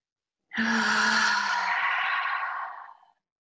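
A single deep inhale, drawn in as one long, airy breath that lasts about two and a half seconds. It starts abruptly after a brief silence and gradually thins out before stopping.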